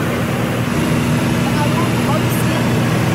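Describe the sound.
Steady propeller aircraft engine drone heard from on board a small plane whose propeller was straightened after damage, approaching to land in poor visibility; a loud, unbroken rumble with a constant low hum runs throughout.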